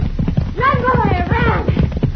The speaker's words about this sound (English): Bet I've got a fast horse. Faster than your Diablo, Cisco.